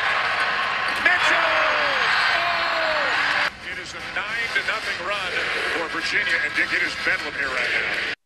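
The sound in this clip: Segment-intro sound effect announcing the Cavalanche feature in basketball commentary: a loud, dense burst of layered noise with bouncing-ball thumps and sweeping tones. It drops sharply at about the midpoint, then builds back up in choppy pulses.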